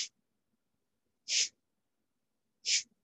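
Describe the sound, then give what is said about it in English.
Three short, forceful exhales through the nose, done as Kapalabhati yoga breaths. Each is a sharp, hissing burst separated by silence, with the first one cut off at the start. “So let's just do one or two of the classic Kapalabhati breaths. So tummy out and...”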